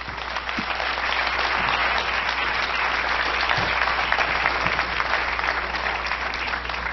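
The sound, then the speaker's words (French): Dense, steady applause from a gala audience for a singer-songwriter contestant. The clapping holds at an even loudness for about seven seconds with no voices over it. “et on l'applaudit”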